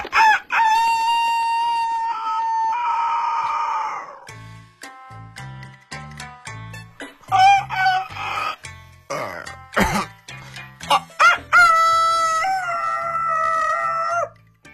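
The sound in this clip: A human voice imitating a rooster crowing: loud, drawn-out, strained crows with a throaty rattle, broken by short choppy clucking notes before another long crow.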